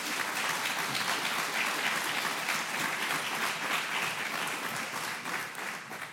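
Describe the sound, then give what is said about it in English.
An audience applauds to welcome a guest pastor at a church service: dense, continuous clapping that holds steady and then eases off slightly at the very end. “So please put your hands together and welcome Kevin Edwards.”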